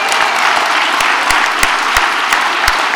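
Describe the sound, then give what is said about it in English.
Audience applause and cheering at a party conference in Dublin's RDS. A dense, even wash of clapping runs throughout, punctuated by scattered low thumps. “Yeah, I wasn't sure that would get a cheer.”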